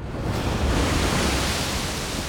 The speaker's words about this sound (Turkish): Bardaktan boşalırcasına yağıyor. Sert rüzgarlar var, sıcaklık düşüyor.